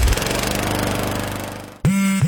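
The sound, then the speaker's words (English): A Gravely lawn mower engine running with a loud, steady, pulsing rumble that cuts off abruptly, followed by a brief different sound. “Take your lawn mowing up a notch with a Gravely.”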